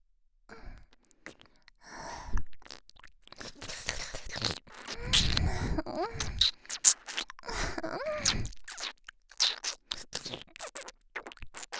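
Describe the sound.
Close, intimate eating sounds: wet smacking, scratchy crunches and rustling come in irregular bursts, mixed with breathy sighs and groans.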